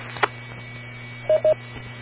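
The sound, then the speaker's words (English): Telephone keypad tones dial a star code on a radio autopatch: a brief beep, then two slightly longer beeps close together, over a steady low hum. “You hit the star code first, and then you make your regular call number.”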